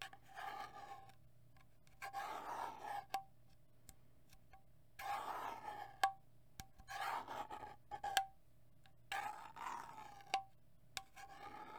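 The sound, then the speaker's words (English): Scratchy rubbing of a sticker on the silver screw-top lid of a candle jar being handled, heard as five separate bursts of dry rasping with short quiet pauses between them. “It has a screw top lid that is a silver color and a sticker on top. You can hear the sticker here.”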